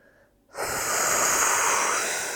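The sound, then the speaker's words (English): A deep breath drawn down into the belly during a guided breathing exercise: one long, loud, steady rushing inhale that begins after a brief quiet moment and holds for about two seconds, with no talking. “just become aware of your breath and take some deep breaths down in your belly. Feel your belly rising, feel your chest expanding up to your throat.”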